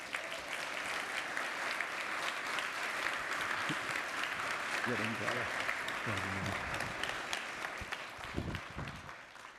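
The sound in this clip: Warm applause from a church audience welcoming a new campus pastor to the pulpit: dense, continuous clapping with a few voices breaking through midway and near the end.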